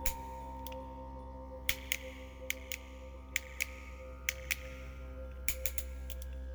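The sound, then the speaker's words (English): Clicks of a bicycle's index gear shifting: a series of sharp, short ticks at irregular intervals over a steady low hum, with no talk. “that click when you change gears on a bicycle.”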